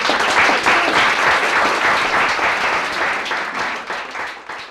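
Audience applause follows a reading: dense, steady clapping from start to finish, easing slightly toward the end, with no voices.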